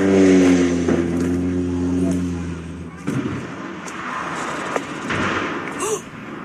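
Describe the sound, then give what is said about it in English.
A seaplane crash in the San Juan Islands: a steady engine drone with a strong harmonic tone cuts off midway into a broad, noisy rush broken by a few sharp knocks. “watched a Kenmore Air seaplane crash in the San Juan Islands. And a warning, you can hear what sounds like the actual crash in this video posted on X by a user who goes by the handle JMS.”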